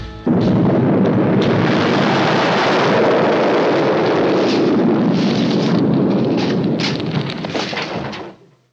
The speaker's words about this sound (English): we get some nice big flashing lights, and we get some, like, negative film effects, and some explodey noises.